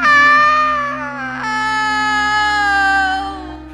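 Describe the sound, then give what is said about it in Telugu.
A witch's terrifying scream, used as a horror story sound effect, is a loud, high, sustained wail that holds its pitch, breaks briefly, then resumes in a second long stretch. “ఒక్కసారిగా భయంకరంగా అరుపు వినిపించింది అది ఆ మంత్రగత్తెదే అని అర్థమై తిరిగి చూడకుండా బయటపడ్డారు”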